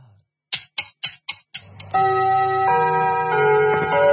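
A clock chime marks twelve noon: five sharp, evenly spaced ticks come first, then a loud, sustained ringing of layered bell-like tones that shift in pitch and hold to the end.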